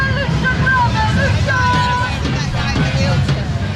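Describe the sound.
Loud street ambience in London as crowds march during two simultaneous demonstrations, one pro-Palestine and one far-right: a dense, continuous din of many voices with wind-like rumble and some higher chanting or whistling tones.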